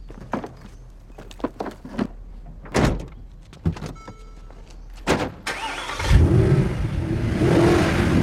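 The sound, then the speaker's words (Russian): Car doors thud shut a few times, then the engine of a big six-wheeled Mercedes, truck-like, starts and settles into a steady rumbling drive as the vehicle turns and pulls away along a road. “Сели в машину, развернулись и поехали по дороге.”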